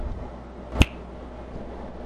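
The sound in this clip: A single crisp finger snap, sharp and brief, standing alone against a quiet background.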